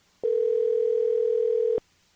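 A single steady telephone dial tone sounds alone, starting and stopping abruptly and holding an even, unbroken pitch for about one and a half seconds.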